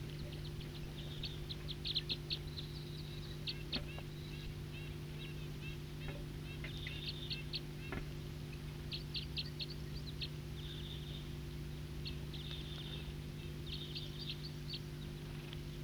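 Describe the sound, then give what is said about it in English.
Wild birds singing, with many faint high chirps and short trills scattered throughout over a steady low hum. “Wild birds.”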